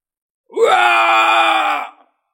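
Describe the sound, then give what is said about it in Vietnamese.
A monster's earth-shaking roaring scream: one sustained, harsh, strained cry lasting over a second, sweeping sharply upward at the start, then holding a steady pitch before cutting off. “Tiếng gào thét rung trời, đó chính là Tam Đầu Vương.”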